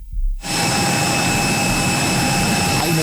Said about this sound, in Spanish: En ese avión volando a Barcelona, aquí estamos siguiendo el vuelo en pantalla en el Fly Radar